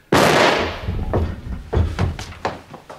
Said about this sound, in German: Der Schuss hatte den Inspektor um Haaresbreite verfehlt.